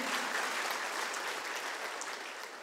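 A church audience claps in praise during a Sunday sermon. The hand-clapping is faint but dense and continuous, easing slightly toward the end, with no voices over it.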